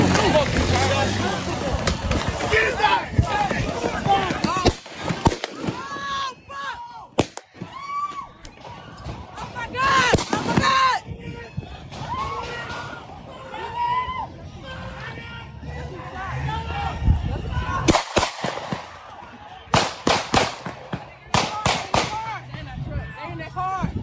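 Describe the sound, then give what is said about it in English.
Gunshots ring out in night-time video footage of the Rittenhouse shooting: a few sharp, loud cracks stand out amid continuous shouting and agitated crowd voices. “So that was the second half of the shooting. This is where Rittenhouse shot Anthony Huber”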